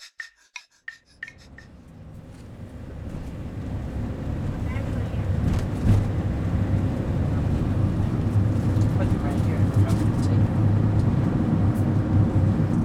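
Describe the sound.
Steady low road rumble of a car on a journey, building over the first few seconds after a few sharp clicks at the start, then holding as an even, continuous drone.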